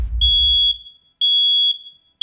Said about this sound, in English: When was the last time you checked your smoke detectors?